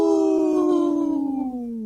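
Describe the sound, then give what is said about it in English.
A person imitates a wolf howl with one long, loud, sustained cry that slowly falls in pitch and wavers toward its end. The voice is heard alone. “That was a good howl.”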